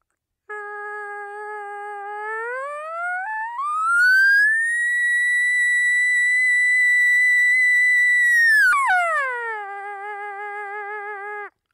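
A latex diaphragm call is blown as one exaggerated whistling note. It starts low, climbs smoothly to a long, steady high pitch, then drops abruptly to a lower note that holds briefly before stopping. The tone is clear and reedy, with no voices.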